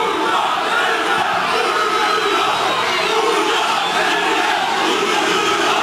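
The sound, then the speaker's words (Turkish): Crowd chanting and cheering at a political rally in a public square, a dense, loud roar of many voices that continues unbroken for several seconds as a speech is interrupted. “Konuşması zaman zaman tezahüratlarla kesildi.”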